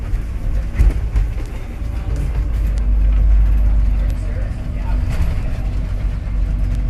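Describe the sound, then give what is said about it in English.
A long convoy of vehicles streams around a street corner, a loud, continuous low rumble of engines that swells and dips without a break. “They're still coming around the corner. They're still coming. There's no end to this convoy. Just an endless stream of vehicles.”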